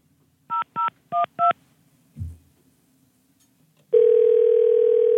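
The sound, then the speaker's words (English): Touch-tone telephone keys are dialed to place a call: four short two-tone beeps in a quick, even rhythm, then a soft click, a pause, and a loud, steady continuous line tone. “We thought it'd be funny to call Santa for Hire”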